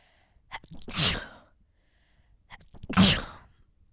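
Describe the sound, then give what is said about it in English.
Two sneezes, each a short breathy intake followed by a sharp, loud burst, about two seconds apart, with quiet in between. “I hope you said bless you to me. Thank you.”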